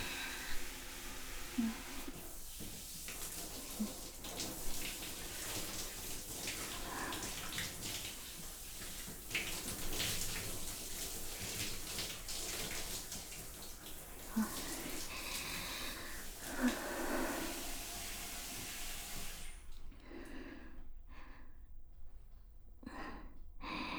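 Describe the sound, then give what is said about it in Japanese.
Water runs and splashes during a rinse, a soft, steady rush that carries on for most of the stretch before breaking into a few short bursts with quiet gaps near the end. “流しますね。”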